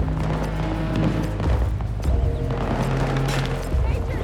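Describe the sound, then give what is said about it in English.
Video game combat in a multiplayer shooter: dense bursts of gunfire with a few heavy, low booms of explosions cutting through. “Tossing grenade!”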